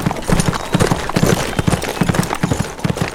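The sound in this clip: Hooves of a stallion clip-clopping as it is ridden up to a ranch house porch rail, a steady, loud run of many sharp hoof beats in a regular gait, with no voices.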